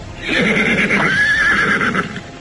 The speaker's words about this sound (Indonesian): Tolong kau tambatkan kuda ini.